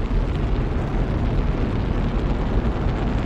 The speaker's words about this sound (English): At zero, the solid rocket boosters were ignited, and the explosive bolts that hold the shuttle stack to the pad detonated.